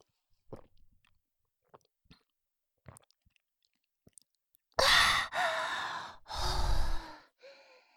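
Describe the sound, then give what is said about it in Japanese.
Chilled mineral water is gulped down in a few quiet, scattered swallows, followed by several loud, breathy exhales of relief and a softer final breath. “おいしい。いっぱい汗かいて喉が渇いていたから一気に飲んじゃいました。”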